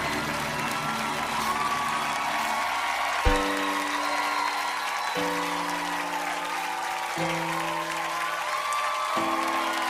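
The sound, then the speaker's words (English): A packed theater audience cheers and applauds in a continuous roar of clapping and shouts. Sustained low musical chords enter partway through and shift several times beneath the crowd. “The theater's packed, they're cheering so loud.”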